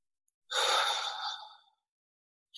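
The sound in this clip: One long, relaxed exhale through the mouth: a soft, airy, breathy rush that tapers off over about a second, followed by silence and the faint start of another breath.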